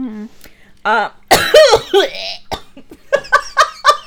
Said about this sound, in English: Excuse me while I choke on my own fucking breath. It was not even spit. It was just, like, my breath.